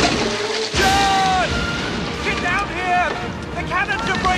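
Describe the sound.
Huge storm waves crash onto a ship's decks. A sudden heavy crash comes early, then a continuous roaring wash of water and wind carries on, with wailing, howling tones rising and falling above it.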